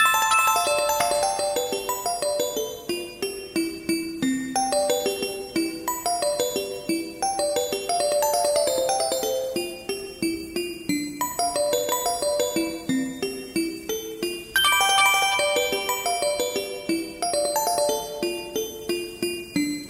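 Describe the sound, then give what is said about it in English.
Chiming, bell-like electronic tones sonify December snowfall data from 1970 to 2021, many bright notes falling in repeated stepwise cascades that ring and decay one after another at a steady pace, moderately loud with no voices. “So, what would all the Decembers from 1970 to 2021 sound like together? Here's 51 years of data in 34 seconds.”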